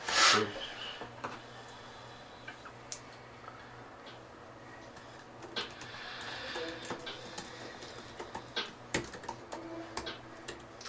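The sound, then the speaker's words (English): Notes are written down during a D&D x Minecraft game session, heard as faint, light clicking taps scattered through the stretch and growing busier toward the end. “Just writing it down for future reference”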